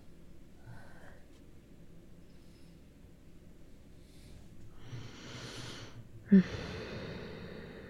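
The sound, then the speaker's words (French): A deep inhale swells slowly as a soft, breathy hiss over a faint low hum. A sharp click follows, then a second breathy rush. “J'inspire.”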